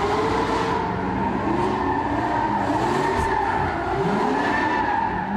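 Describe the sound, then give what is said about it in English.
Tires screech as cars drift around a city intersection. Loud, continuous squealing wavers and slides up and down in pitch, layered over rough engine noise and road rumble without a break. “So these two idiots are ripping around doing like drifting.”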